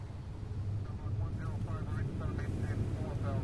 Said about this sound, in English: This is Captain Steele. We're about 5 minutes from Dulles. Please secure yourself and your belongings for landing.